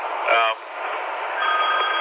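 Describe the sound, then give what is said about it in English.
A brief electronic telephone ring heard over radio static, a short trilling burst near the start, followed by a faint, steadier tone later amid hiss and talk. “I got a phone call coming in here. Let me grab this.”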